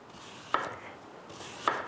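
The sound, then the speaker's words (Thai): A knife slices carrot and daikon radish into strips on a cutting board, giving two crisp chopping knocks about a second apart, each with a brief scraping rasp, fairly quiet and with no talk. “เราก็มาใส่แครอทกับหัวไชเท้าได้เลยเราจะซอยเป็นเส้นไว้ก่อน”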